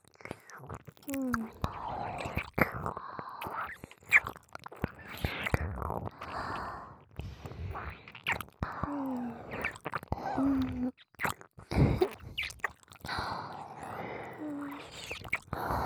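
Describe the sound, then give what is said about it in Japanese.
Wet ASMR ear-licking mouth sounds, many irregular close smacks, slurps and tongue clicks, interspersed with soft whispering in a female voice. “この耳、私がいっぱいレロレロしてあげますから、気持ちよくなってくださいね。”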